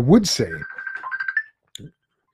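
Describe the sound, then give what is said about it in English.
An incoming messenger call rings on a phone with a brief electronic warbling tone that follows a short burst of talking, then a small click and silence. “And so if you just heard that ringing, I was getting a call on my messenger. So forgot to silence that.”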